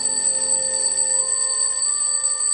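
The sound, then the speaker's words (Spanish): An alarm clock ringing: a steady, high, bright ringing tone holds unbroken and at an even moderate level throughout, no voices. “Y lo siguiente que noté fue el sonido de la alarma de mi despertador”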